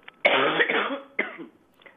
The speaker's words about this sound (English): Sorry, I'm getting over a cough.